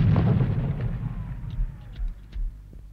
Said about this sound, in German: Was ist das? Artillerie. Kanonen.